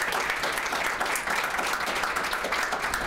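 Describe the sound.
An audience applauds to welcome a speaker to the stage, with dense, steady clapping that holds at an even level throughout and no voices.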